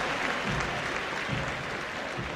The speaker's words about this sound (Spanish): saludando a la gente y, por supuesto, también agradeciendo el aplauso que cada vez fue incrementándose